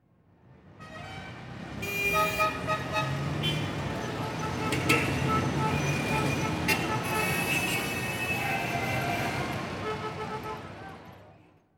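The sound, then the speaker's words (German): City traffic roars steadily on a station forecourt in Berlin in February as cars, buses and taxis pass. Several car horn toots cut through the traffic noise, which swells in and fades out at the end. “Autos huben, Busse kommen, Taxis halten und fahren sofort wieder weg.”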